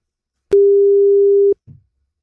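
Telephone ringback tone as a call is placed: one steady, mid-pitched tone lasting about a second, followed by a brief, faint low thump.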